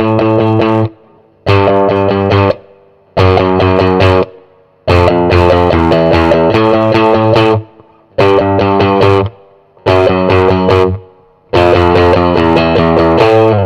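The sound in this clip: A distorted electric guitar riff from a classic rock song, played loud in several chunky repeated phrases with brief breaks between them. Heavy overdrive thickens every chord, and no voices are heard.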